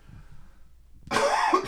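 A single harsh, phlegmy cough clearing the throat: a loud, raspy burst that breaks a second of near silence and lasts about half a second.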